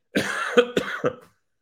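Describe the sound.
Harsh coughing and throat clearing from a person with something caught in the throat: one longer rasping burst followed by a few short, sharp coughs, loud and alone with no talk.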